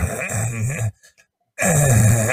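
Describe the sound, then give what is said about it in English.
A voice imitates an old man grunting and groaning: two drawn-out, low, strained vocal groans separated by a short silent pause. “He's just always moaning and groaning and grunting like an old man.”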